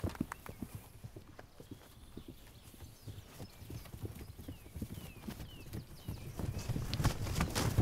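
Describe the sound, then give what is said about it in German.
Hooves of a herd of horses moving toward a newborn foal make many overlapping clip-clops in an uneven, steady rhythm, growing louder toward the end. “Noch einmal herrscht Bewegung. Die Herde will zum neugeborenen Fohlen”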